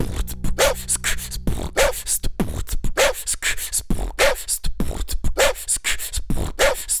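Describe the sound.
A dog whimpers in a rapid, rhythmic string of short, high yips and whines, repeating many times at an even pace without pause.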